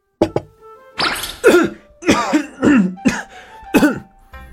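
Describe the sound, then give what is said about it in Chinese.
A person coughing after choking on a mouthful of tofu, a rapid series of harsh, throaty coughs broken by short gasping pauses. “赵普本来吃着饭，偏头一眼看见叫豆腐呛住了，直咳嗽”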